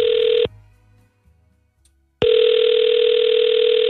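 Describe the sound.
Ringback tone on an outgoing call to an American number, a steady electronic tone that cuts off after about half a second, then resumes and holds after a silent gap of nearly two seconds.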